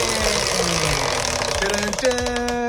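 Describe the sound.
Prize wheel spun to pick a category in a quiz game: a loud, steady run of rapid mechanical ticking with a sustained tonal hum over it.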